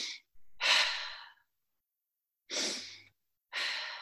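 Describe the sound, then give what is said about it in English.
Breathing exercise with a short inhale followed by a long exhale, heard as a few soft, airy breath sounds separated by quiet pauses, with no talking. “So short inhale and long exhale, right? You do it a few times.”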